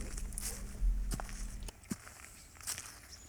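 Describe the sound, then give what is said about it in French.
Footsteps crunch over loose stones on a mountain climbing path. A few faint, scattered steps scrape and click against a quiet background. “Tu sais, les chemins pour grimper sont pleins de pierres. Quand tu marches dessus, ça donne cette musique spéciale.”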